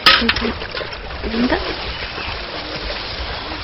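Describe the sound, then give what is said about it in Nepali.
Water poured out of a bucket onto a path used for washing clothes makes a rushing, splattering burst at the start that settles into a softer, steady wash of trickling noise. “बाउजू, त्यो बाल्टिनको पानी मेरो लुगा धुने बाटोमा हालिदिने त।”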